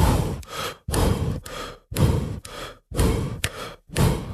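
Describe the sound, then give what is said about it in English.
Heavy, rhythmic breathing demonstrating a pattern of two jump-rope double unders per breath: many forceful, airy breaths in quick regular pairs separated by short gaps, loud and alone. “this is a breath to rep ratio where it could be 2 double unders per single breath or 4 double unders per breath. So a 2-to-1 would sound something like this.”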